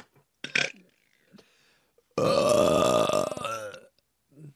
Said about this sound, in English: I'm going to use my burping horn. Okay. One sec. Hold up. I got to build up a good one.